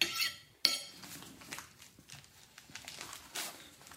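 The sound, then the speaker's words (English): North Macedonian chicken soup served into a bowl, with one sharp clink of dishes and cutlery followed by softer scrapes, rattles and light taps, quiet and without talk. “Okay, so I've just served my soup in a bowl there with my tea scone and homemade butter”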